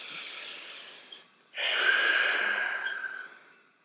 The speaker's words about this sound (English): Let's take a deep breath.